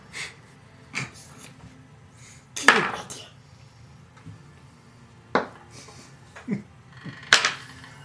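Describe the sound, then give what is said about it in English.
A dice-roll sound effect marks a natural 20 in a tabletop role-playing game: a few sharp, bright clattering hits spread out over several seconds, with a low hum underneath and no talk. “It's a nat 20 for Franz again. That's what that sound is. I was wondering. Yeah, it's like the dice all lit up.”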